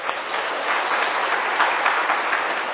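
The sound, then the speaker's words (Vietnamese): Students applaud at a Buddhist teacher's lecture with steady, dense clapping that holds evenly throughout, with no voices. “Các bạn giỏi. Hoan nghênh cái này đi.”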